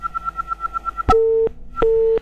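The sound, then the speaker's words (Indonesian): A phone call to a radio program drops: a rapid run of about nine high, even beeps, then a sharp click and two longer, lower steady line tones broken by another click. “wah sebenarnya terputus ya teleponnya dari Bang Agau ya”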